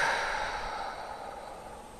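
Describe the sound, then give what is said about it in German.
A deep breath exhaled slowly through the mouth during a guided relaxation exercise: one soft, airy whoosh that gradually fades over about two seconds, with no talk. “Und dann nehmen wir nochmal einen tiefen Atemzug durch die Nase rein. Und durch den Mund wieder aus.”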